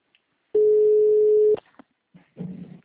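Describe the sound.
Ringback tone of an outgoing telephone call: one steady, low, fairly loud beep lasting about a second, followed by faint brief noises.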